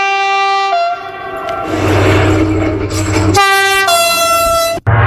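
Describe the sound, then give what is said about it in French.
A TGV high-speed train sounds sustained, loud two-tone horn blasts at the start and again later, with a broad rushing roar and low rumble between them, cutting off abruptly near the end. “2006, le TGV fête ses 25 ans.”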